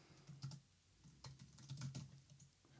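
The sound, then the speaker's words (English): Typing a search on a computer keyboard: faint, irregular clusters of crisp key clicks tapping out in quick bursts with short pauses between them, no voices. “if you type Scud attack Iraq... And maybe shoot down or something.”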